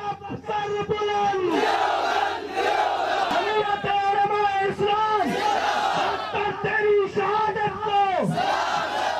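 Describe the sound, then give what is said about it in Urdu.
Protesters from the JUI-F party chant slogans at a rally in Islamabad, a loud massed crowd shouting repeated rhythmic phrases, each chant swelling and then dropping off before the next begins. “اسلام آباد میں جے you I F کے احتجاجی مظاہرین نے نعرے بلند کر کے ڈاکٹر سومرو کو خراج عقیدت پیش کیا۔”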